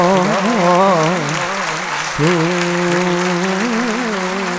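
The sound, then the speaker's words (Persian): A crowd claps for Imam Reza at a religious gathering, a steady dense wash of hands beneath a loud, wavering chanted male voice, with a brief dip near the middle. “اگه برای امام رضا دست میزنی باید با جون دست میزنی.”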